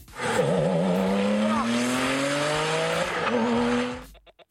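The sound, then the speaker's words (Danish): A Porsche sports car engine revs hard under acceleration, its loud, rough tone climbing steadily in pitch, dipping briefly as if at a gear change, then rising again before cutting off abruptly. “Det må være en Porsche. Det er en Porsche.”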